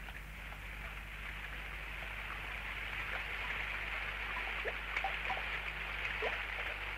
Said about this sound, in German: Es regnet jetzt schon 3 Tage lang ununterbrochen.